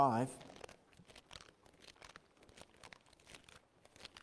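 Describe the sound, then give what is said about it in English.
Soft, overlapping rustles and crinkles of book pages being turned by an audience at a church service, continuing faintly throughout after a brief voice at the very start. “Good to hear pages turning this morning.”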